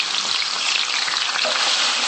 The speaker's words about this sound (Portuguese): E vamos colocar também o alho para refogar.